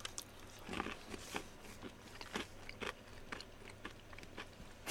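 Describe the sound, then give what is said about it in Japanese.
Someone chewing and biting food while eating: many soft, crunchy, crackling bites and mouth sounds in an irregular rhythm, fairly faint, with no talk. “黙々と食べちゃってるよ”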